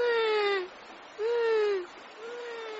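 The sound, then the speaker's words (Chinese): A child cries in three drawn-out whimpering wails with no words. The first two are louder and sag downward in pitch, and the last is quieter and flatter. “说着说着，阿奇就哭了。”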